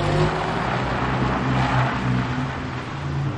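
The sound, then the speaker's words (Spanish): A car drives away, its engine giving a steady, loud, low rumble that carries on without a break and with no voices. “El coche se va. La anciana mira por la ventanilla.”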